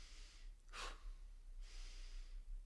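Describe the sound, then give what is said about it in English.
A sharp, deep breath is drawn in through the mouth as one quick, breathy hiss. It is quiet and stands alone, with no talk. “okay, take a deep breath. People are going to go.”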